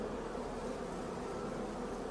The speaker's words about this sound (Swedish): Jag tycker det nästan låter som en flugsvärm på, på avstånd eller någonting.